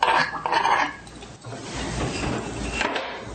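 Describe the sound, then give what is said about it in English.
Chopped apples tip into a pie pan with a burst of clattering thuds at first, then a softer, continuous shuffling rustle as the pieces settle. No one speaks. “So that is what we have, chopped apples, and this is what we're going to do. Just put them just like this into our pie pan.”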